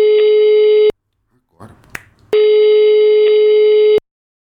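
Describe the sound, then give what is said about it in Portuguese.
A telephone ringback tone on an outgoing call: two long, steady, buzzing tone bursts, loud and even, separated by a pause holding faint rustling and a sharp click. “tá chamando, tá chamando, tá chamando, tá chamando”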